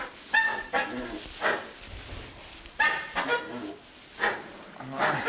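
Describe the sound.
Egg-laying hens squawk and scold while their nests are checked for eggs: many harsh, loud, honking bursts come in an uneven rhythm, with a few calls close together.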